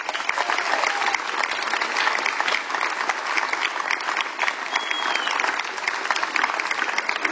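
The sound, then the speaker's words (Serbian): Warm audience applause at an evening song festival, many hands clapping densely and continuously at an even, loud level with no break. “Dame i gospodo, toplim aplauzom pozdravite”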